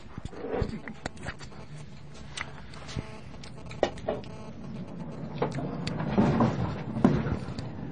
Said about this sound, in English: And that sound is not Pat falling down. That sound is that's the conveyor belts upstairs.